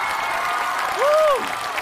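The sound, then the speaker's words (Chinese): An audience applauds to welcome guests onto a show stage, with steady, dense clapping and a brief rising-then-falling whistle or whoop that briefly lifts the loudness. “接下来让我们用掌声欢迎寻风团成员蔡国庆和寻风好友韩雪，欢迎两位。”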